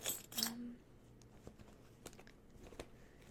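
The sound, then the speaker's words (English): Keys jangle in a short burst of bright metallic rattling at the start, followed by a few faint clicks and soft handling rustles; the sound is quiet overall. “Oh, I have my keys, awesome.”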